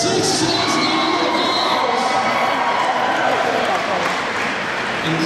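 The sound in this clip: A dense convention crowd at PAX Prime cheers, whoops and shouts at a charity auction as the winning bid for a drugstore claw machine comes in. The roar is loud and continuous throughout, with excited voices mixed in.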